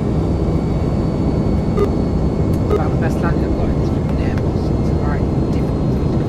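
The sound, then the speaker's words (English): Airplane engines in a flight simulator video game, a continuous, loud engine roar with fainter higher whining tones drifting in and out. “I'm getting a lot of like engines spooling up and down with this”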